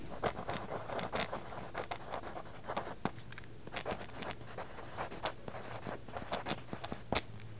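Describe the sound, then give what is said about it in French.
Pencil drawing on paper: continuous scratchy, rasping strokes broken by short sharp taps and scrapes, quiet and with no talk. “Le crayon fait un bruit suivant sur quel support tu dessines.”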